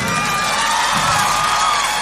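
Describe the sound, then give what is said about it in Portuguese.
Crowd cheering and applauding for a band at a live show, a loud, sustained roar with whoops and shouts that hold steady throughout. “Por favor, uma salva de palmas aqui para minha banda.”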